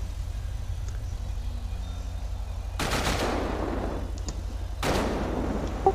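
Gunfire in a police video game: two loud, harsh bursts of rapid shots, the second shorter, over a steady low rumble.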